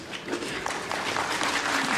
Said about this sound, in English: Got some applause.